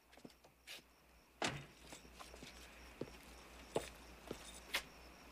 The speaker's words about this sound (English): pulls into the driveway of a suburban house and parks in front of the garage. He gets out, carrying the things he picked up at the store.